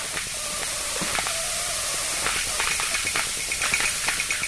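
A steam radiator in a Manhattan apartment gives off a continuous airy hiss, with faint tonal whistles and scattered light ticks and knocks running through it.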